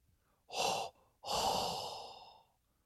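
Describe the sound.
Two heavy, breathy puffs of air, a short one followed by a longer one that trails away. Both are faint, with no talk.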